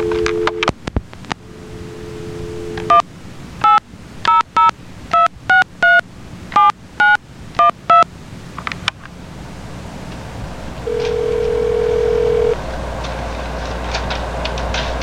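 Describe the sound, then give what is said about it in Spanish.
A telephone dial tone, then a rapid run of many short DTMF keypad beeps as a number is dialed for a 1993 call to Havana, Cuba, over a steady hiss, with a later steady tone. “vamos a hacer una llamada a Virgilio”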